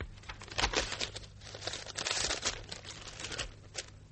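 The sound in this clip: Soft paper crinkling and tearing as an envelope is handled and opened, quiet rustles and crackles in uneven bursts without any voices.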